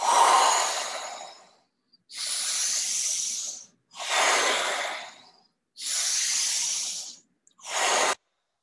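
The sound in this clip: Five deep breaths during a guided breathing exercise, each a strong, hissing rush of air lasting about a second and a half, separated by short silent pauses in a steady rhythm. The fifth breath is noticeably shorter.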